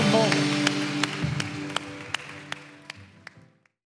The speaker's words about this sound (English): Can we give these three individuals a huge round of applause